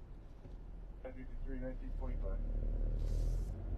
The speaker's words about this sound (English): Boy, everybody, what the hell is going on in the city tonight? Have you ever seen such traffic?